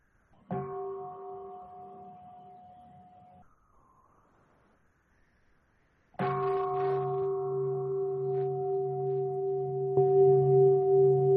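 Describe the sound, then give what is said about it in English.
A meditation bell is invited during a Buddhist dharma talk. It gives a clear, ringing stroke that fades over a few seconds. After a near-silent pause it is rung again, and a strong, sustained tone holds to the end. “So I will pause now and I will invite the bell.”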